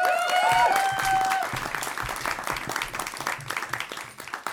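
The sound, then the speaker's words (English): Audience applause breaks out for a performer being introduced: dense, steady clapping from many hands that holds loud, then gradually thins and tapers toward the end. “put your hands together for the wonderful Dawn Llewellyn.”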